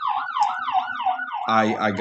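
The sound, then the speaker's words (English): A police siren wails in smooth, repeating rise-and-fall sweeps, loud and steady, then switches abruptly to a harsher, buzzing tone near the end. “And I hear the sirens on cue. Here are the sirens, and I'm talking about police.”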